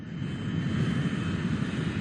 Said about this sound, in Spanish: Estamos en el aeropuerto, en la pista de aterrizaje, ahora mismo.